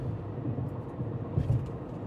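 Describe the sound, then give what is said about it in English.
Low, steady road rumble of a car driving on the Route 95 highway, a faint continuous drone with slight swells and no talk. “I am right now on Route 95 somewhere, I don't know, is this the Bronx?”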